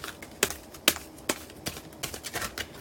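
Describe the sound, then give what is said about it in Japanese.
Oracle cards being shuffled: crisp, papery snaps and taps, several sharp ones at uneven intervals followed by quicker, softer flicks. “今カード切っております”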